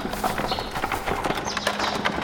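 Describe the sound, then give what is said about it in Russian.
Horse hooves clip-clop steadily as a horse-drawn cart approaches at Rila Monastery during an Easter crowd, with many even, moderately loud hoof strikes running through the whole clip. “А вон телега подъезжает. Она-то нас и интересует.”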